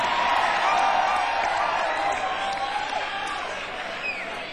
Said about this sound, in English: See, this, you know, this audience response doesn't count.